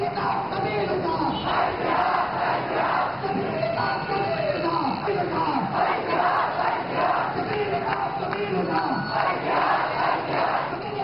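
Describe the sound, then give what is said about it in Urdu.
Students chanting anti-American slogans at a Karachi street protest against a film made in the United States: many voices shout together in steady, rhythmic unison, loud and unbroken throughout. “طلبہ نے امریکہ مردہ باد کے نعرے لگائے اور امریکی صدر کا پتلا نظر آتش کیا۔”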